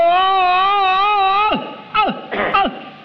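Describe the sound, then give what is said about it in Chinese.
A male voice performs the stylized crying of the Peking opera old-man role: a long, loud wail with wavering vibrato, then a few short sobbing cries that slide down in pitch. “京戏的这个哭是用了夸张的手法 哦， 跟我们生活中的那个哭啊有很大距离。 对， 老生一哭是这样。”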